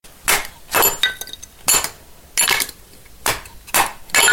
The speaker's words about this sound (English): The sound you just heard was a recording of someone chopping wood.